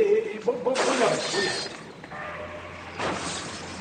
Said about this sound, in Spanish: Mesa derribada, jarrón roto.